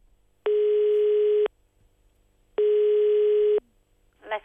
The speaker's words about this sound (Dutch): We bellen even met een Chinees.